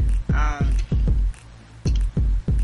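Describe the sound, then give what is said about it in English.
Gulping sips from a cup of crushed ice: a series of low, rhythmic thuds, each swallow short and muffled. They come in two bursts separated by a brief pause, with no talking. “You guys will hear that is my cup. I've got some crack ice in here.”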